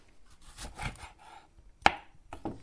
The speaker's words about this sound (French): Donc, on coupe l'avocat en petits bouts. En petits morceaux aussi, ouais.